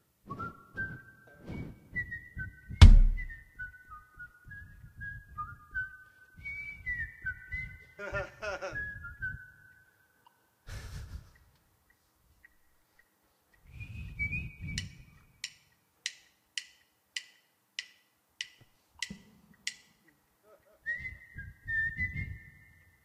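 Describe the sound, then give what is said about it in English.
A person whistles a melody, first in sustained, gliding notes, then in a run of short, evenly spaced high notes, with a few bursts of talk in between. “I'll just whistle, you play.”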